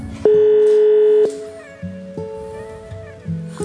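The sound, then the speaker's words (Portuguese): Ringing tone of an outgoing WhatsApp call waiting for an answer. A steady electronic tone holds for about a second, then softer tones repeat, with faint background noise. “pelo WhatsApp aqui, vamos ver. Ó. Tá chamando, vamos lá.”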